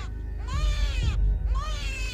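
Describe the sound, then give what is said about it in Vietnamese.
A newborn baby cries loudly just after delivery, giving two wailing cries with bending, wavering pitch. A low rumble continues underneath throughout. “Cô Mận còn chưa kịp thở thì đứa trẻ thứ hai tiếp tục lòi ra, tiếng nó khóc như xé vải.”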